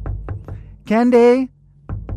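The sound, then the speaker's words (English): Knocking on a closed, locked bedroom door: three soft, quick raps, a brief voice, then two more knocks, each a dull hollow thud. “And suddenly her mom knocks at the door.”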